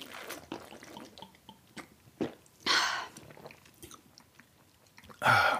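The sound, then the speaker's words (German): A big gulp of beer drunk straight from a cool bottle: faint wet mouth and swallowing sounds, then two louder, breathy bursts spaced a few seconds apart. “ich trinke jetzt mal einen großen Schluck aus der Flasche daraus”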